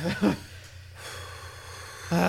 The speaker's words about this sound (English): I gotta take a deep breath.